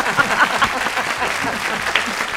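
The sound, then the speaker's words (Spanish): Audience applause at a Valencian fallas event: loud, steady clapping from many people that holds an even level from start to finish. “Un aplauso, por favor, para todos ellos.”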